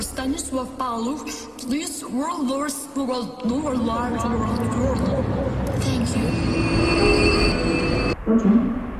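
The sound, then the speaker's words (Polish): Faint, hard-to-make-out loudspeaker announcement at a railway station under renovation, nearly buried beneath the steady roar of a train, with a thin high whine running through the later part. “Przez remont pociągi często odjeżdżają z innych niż zazwyczaj peronów, o czym informują dźwiękowe zapowiedzi. Problem w tym, że są one ledwo słyszalne.”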